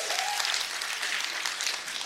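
Audience applause fills a room, a dense, steady wash of clapping that holds at an even level for about two seconds with no voices over it.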